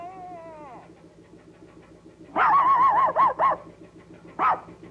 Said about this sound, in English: Next to a barn, the silhouette of a dog stands barking into the night sky.